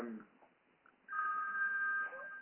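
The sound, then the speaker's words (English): An old rotary-style telephone ringer sounds as a sustained, steady ringing tone lasting about a second, following a brief bit of speech. “At least their ringer. I envisioned the olive green one when I heard that little rotary style.”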